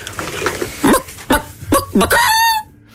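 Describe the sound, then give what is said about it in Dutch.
A woman's voice imitates a hen cackling after laying an egg: a few loud, abrupt clucks, then a longer, high, drawn-out cackle before silence. “de frase die zoveel betekent als ik heb een ei gelegd. Mm-hmm. Dat bestaat uit een aantal lagen. En dan wordt het... dan moet ik eerst even mijn keel in de kippenstand krijgen.”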